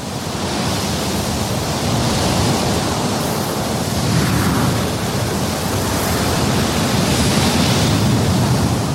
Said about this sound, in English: The ferocious wind, armed with grains of sand, is the agent that shapes all deserts.